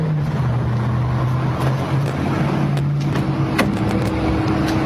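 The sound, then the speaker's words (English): A driverless robotaxi car hums steadily as a ride starts, giving a low, even motor drone with slight shifts in pitch and no clear bursts of acceleration. “Time for me to take my driverless ride to run my errand.”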